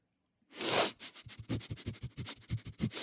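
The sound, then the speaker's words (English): A person sniffs a homemade pie: one long, deep inhale is followed by many quick, rhythmic sniffs in a steady run. “Yes, he's using his sniffer accidentally. I'm inhaling a great... He doesn't even need to waft.”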